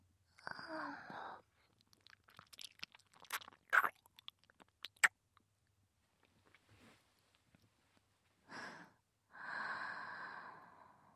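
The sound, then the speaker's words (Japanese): A mouth nibbles on an earlobe, making soft wet clicks and smacks in brief, scattered bursts. Breathy exhales open and close the sequence, and the whole passage stays quiet and intimate. “かわいい耳たぶ、食べてもいいですよね。”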